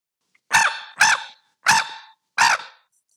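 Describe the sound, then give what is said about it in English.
Four harsh crow caws imitated on a double reed diaphragm mouth call in a turkey-calling setting, evenly spaced, loud and alone. “if I did want to do a crow call, I use my diaphragm and it would just sound like this.”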